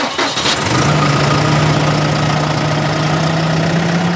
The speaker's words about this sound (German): Sie hören 140 PS, die einen Kartoffelroder von über 13 Tonnen ziehen.